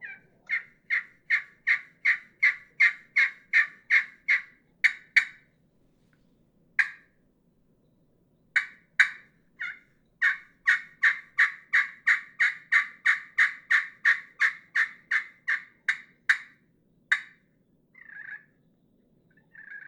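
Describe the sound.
Turkey yelps from a hand-played pot-and-peg turkey call with a black, brown-streaked surface, made by Knockout Custom Calls: two long runs of many rhythmic, evenly spaced raspy notes separated by a pause, then a few softer scattered notes.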